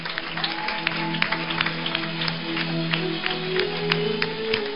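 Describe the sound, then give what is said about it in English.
A church audience claps during a healing service, with many steady claps in a continuous patter. Sustained tones hold underneath the clapping. “I want you to clap for Jesus, everybody. Clap for Jesus.”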